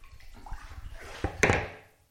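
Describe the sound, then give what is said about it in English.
Seawater sloshing as it is scooped up with a storage lid to trap the incoming tide. A few splashy bursts come steadily closer together, with the loudest near the end, then the sound fades to quiet. “we need to wait until the tide is in and then try and trap it somehow, try and trap some of that water. I'm going to use a storage lid”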